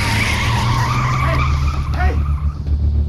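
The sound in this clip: A van peels out with loud, continuous tire squeal over a deep, steady engine roar that lasts throughout.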